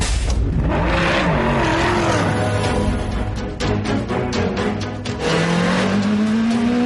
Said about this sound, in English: You are looking at the most technologically advanced racing cars in the world.